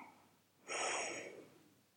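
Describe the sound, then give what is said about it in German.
A single deep breath during a guided belly-breathing relaxation exercise: a faint, soft rush of air that swells quickly, holds for under a second, then tapers off, with near-silence on either side. “Leg mal deine Hand auf deinen Bauch, atme tief ein”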